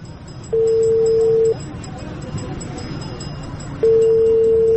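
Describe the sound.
Long steady ringing tones of an outgoing phone call being placed, two even buzzes of about a second each separated by a quiet pause over low background noise.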